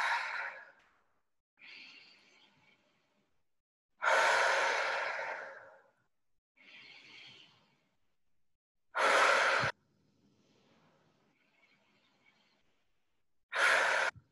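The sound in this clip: Deliberate breathing, in through the nose and out through the mouth, during a guided breathing exercise: several airy, rushing breaths, louder ones alternating with softer ones, separated by quiet pauses, with no talking.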